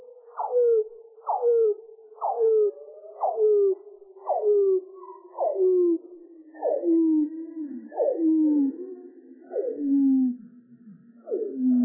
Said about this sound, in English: a complex whale song, the humpback whale?